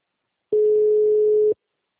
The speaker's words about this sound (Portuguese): senão eu vou tentar pelo meu celular. Agora tá chamando.